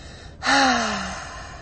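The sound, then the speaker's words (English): A deep exhale through an open mouth during a guided breathing exercise: one loud, breathy release with a voiced sigh that slides gently downward in pitch, then trails off into a softer airy tail. “Inhale through the nose, filling up the heart, your hands puffing up, feeling the crown of your head reach towards the sky, and then open the mouth. Exhale.”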